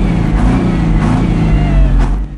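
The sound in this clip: A vehicle engine revving while towing a cabin trailer: a loud, deep, sustained drone with strong low harmonics that holds fairly steady, then drops away right at the end.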